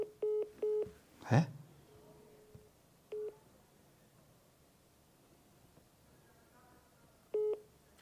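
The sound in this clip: Short electronic telephone tones while dialing during a live cold-calling session: three quick beeps at the start, a brief rustling swoosh, then two more widely spaced beeps over a faint hiss.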